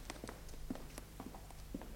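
Footsteps of someone walking away, a few soft, irregular steps that stay faint and come without any other sound.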